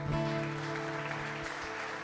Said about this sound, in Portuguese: Aplaudir o Senhor.